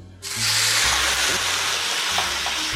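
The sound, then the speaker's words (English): Rum poured into a hot skillet on the stove, erupting into a sudden loud, steady sizzling hiss that starts abruptly and holds throughout, with a low rumble underneath. “I'm gonna pour my rum to the furthest end of the skillet. Now this is gonna happen very, very quickly.”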